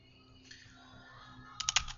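Keys clatter on a computer keyboard: a short, quick burst of several clicky keystrokes comes at the end after near quiet, over a faint steady hum.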